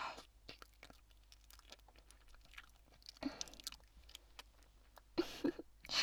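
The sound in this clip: Faint chewing of food with soft crunches and wet mouth sounds, many irregular bites at a quiet level.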